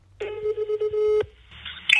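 A telephone ringing while a call is placed: one steady, buzzy tone lasting about a second, followed by a soft hiss and a brief sharp click.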